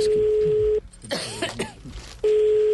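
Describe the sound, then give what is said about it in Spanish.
Coughing and throat clearing come over a telephone line during a call, set between stretches of a steady, even ringback tone that stops and then resumes. “mire, tosieron y todo, mire”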